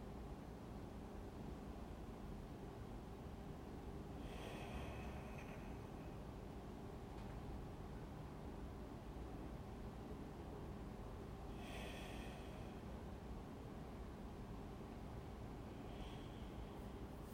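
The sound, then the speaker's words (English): A person taking slow breaths, a few soft, widely spaced breath sounds rising faintly above a steady low background hum, with no talking. “And I take a few breaths”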